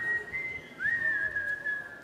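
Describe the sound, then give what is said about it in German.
Cheerful whistling from someone walking away, a thin high tune of a few held notes with a quick upward slide partway through, fairly soft and alone. “Sprach's, steckte die 2 Taler wieder in die Tasche und ging lustig pfeifend davon.”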